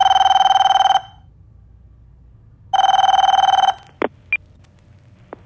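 A telephone rings in two long, steady electronic-sounding bursts of about a second each, separated by a pause, then a couple of short sharp clicks follow.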